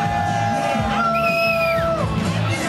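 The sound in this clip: A loud crowd cheers and yells at Carb Day in Pagoda Plaza at the Indianapolis Motor Speedway, a sustained roar with high whoops and shouts cutting through from start to finish.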